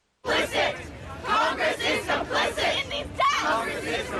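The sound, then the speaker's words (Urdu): Protesting students chant slogans in front of the White House, demanding gun control after a Florida high school shooting; many voices shout in a steady rhythmic cadence of short repeated bursts. “یہ نعرے بازی white house کے سامنے جمع ہونے والے احتجاجی طلبہ کر رہے ہیں۔”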